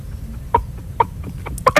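A person imitates a chicken clucking, giving a few short, sharp vocal clucks spaced apart, with a quicker pair near the end, over a low background hum.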